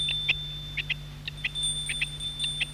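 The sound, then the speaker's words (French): A bell at a house gate rings in a rapid string of short, high electronic chirps, fairly faint over a low steady hum. “En passant devant la maison, il sonne au portail.”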